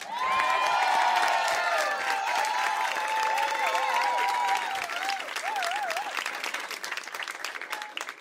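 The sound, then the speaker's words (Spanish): Loud crowd applause with cheering, sustained and dense for about eight seconds, keeping a steady level that tapers slightly toward the end. “Pido un aplauso muy fuerte”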